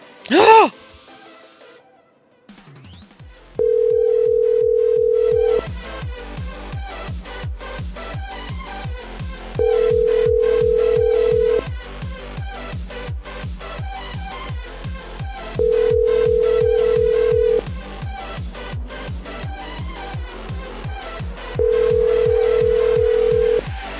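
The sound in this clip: A phone call ringing through to a landline with its own answering machine gives a steady ringback tone: four long, even tone bursts at regular intervals over a constant rhythmic background.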